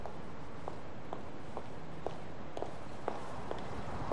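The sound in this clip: People hurry across a courtyard in light, evenly spaced footsteps, a string of faint taps about half a second apart heard against a steady background hiss.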